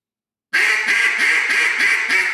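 Raspy call blown on a handmade duck call: a loud, continuous rattling reed tone with a steady rhythmic pulse running through it, heard alone with no talk.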